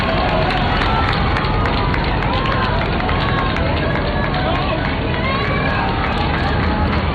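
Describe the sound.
Crowd noise in a street in Spain as people wait for a papal motorcade: a dense, unbroken roar of many voices and movement, loud and steady throughout with no pauses.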